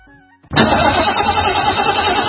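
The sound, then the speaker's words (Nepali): A car engine with battery trouble cranks briefly and catches, then runs at a loud, steady idle until the end. “होइन, के भयो, किन बन्द भएको गाडी? ब्याट्री फेरेको 10 दिन पनि भएको छैन, कति छिटो बिग्रिएको, बन्द भएको भइसक्यो।”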